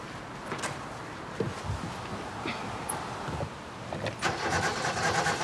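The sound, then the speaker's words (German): A car engine is cranked but fails to catch. The starter whirs and sputters in a few rough bursts with short pauses between, and the engine never settles into an idle. “Setz dich mal rein und probier mal anzulassen.”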